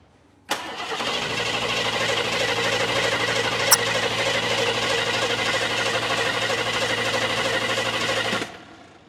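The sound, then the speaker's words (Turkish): A car engine cranking on its starter while being tested to see whether it will run: a loud, steady whirring churn that starts abruptly, holds for about eight seconds with one sharp click partway through, then cuts off. “Sadece biraz marşa bas. Hadi.”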